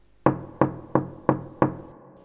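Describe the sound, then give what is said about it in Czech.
Five sharp knocks on a castle door in an even, steady rhythm. Each knock is a crisp thud with a short decay, followed by silence. “A tu na zámecké dveře kdo si zaklepal.”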